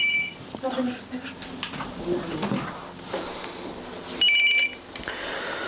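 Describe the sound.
A telephone rings in a struggling small business: two short electronic ring bursts, one at the start and one near the end, with a voice speaking faintly in between.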